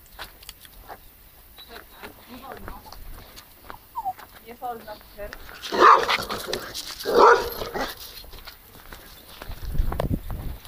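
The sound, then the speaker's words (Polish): Dogs greeting each other with a string of short whimpers and yelps, followed by two louder, harsher bursts, over footsteps and rustling. “Psy się przywitały.”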